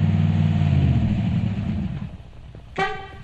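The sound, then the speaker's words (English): A Ford Thunderbird car engine rumbles low and steady for about two seconds, then fades. A horn toots twice in short bursts at the end. “Hey, Daddy, can I go riding with you and your pretty Thunderbird? Sure, baby, you know you can ride anywhere with me.”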